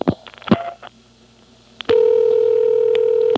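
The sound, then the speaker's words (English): Telephone dialing on a phone trunk line: a few sharp, separate clicks, then a steady held tone that lasts over a second and stops abruptly. “There's a pulse repeater, so I really couldn't hear what that did. So I'll dial one again.”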